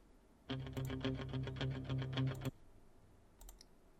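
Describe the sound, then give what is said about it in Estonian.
Fast typing on a computer keyboard while writing a message: a quick run of many keystrokes for about two seconds over a buzzy hum, then a couple of faint clicks. “oota, kohe kirjutan sulle”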